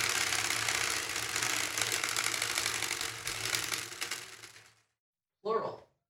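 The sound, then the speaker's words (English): Rapid, dense clicking of a prize wheel spinning in a game segment, loud and steady for several seconds before fading out into silence, followed by a brief voice. “The spinny wheel has landed on plural”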